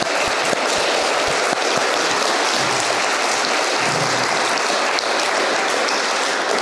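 Applause from an audience welcoming author Jane Harper at a live event. Dense, steady clapping that stays loud and even throughout, with no voices over it.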